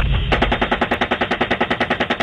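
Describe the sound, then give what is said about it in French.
Machine-gun fire from a helicopter aimed at an ambulance: after a brief lead-in, a long, loud, steady string of rapid, evenly spaced shots. “Depuis l'hélicoptère, les Américains se mettent en tête que ce sont à nouveau des combattants qui viennent récupérer des armes. Ils tirent sur l'ambulance.”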